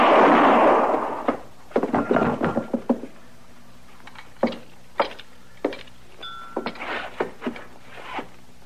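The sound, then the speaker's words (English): A single loud gunshot bursts at the very start and decays over about a second. A scattered series of faint knocks and clicks follows. “Been a long time since I used a gun.”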